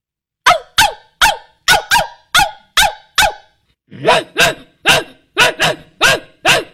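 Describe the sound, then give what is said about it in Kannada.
A big dog and a small dog bark in turn, starting with a steady run of about eight sharp, evenly spaced barks. After a short pause comes a second run of rougher, fuller barks at a similar pace. “ದೊಡ್ಡ ನಾಯಿ ಮತ್ತು ಸಣ್ಣ ನಾಯಿ ಕೂಗುವುದು”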